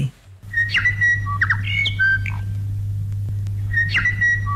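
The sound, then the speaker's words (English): Bird calls from the first morning bird call aired on a national radio program in 1974: a few bright bursts of chirps and whistled notes over a steady low hum. “That's the sound of the first ever morning bird call being played on the national program”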